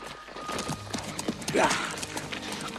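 Horse hooves clip-clop steadily as riders make their way up a stream bed, a continuous run of many uneven hoof strikes over a busy, noisy outdoor background.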